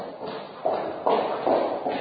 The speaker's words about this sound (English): Imagine walking down the street and hearing footsteps behind you. They get closer and closer, and suddenly you have a sense something bad is going to happen.